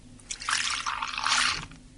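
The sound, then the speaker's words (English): Cold water runs from a tap into a glass in a steady, splashy trickle that lasts about a second and a half and fades out at the end, with no talking. “So shall we try the cold out? I'll try the cold tap as well.”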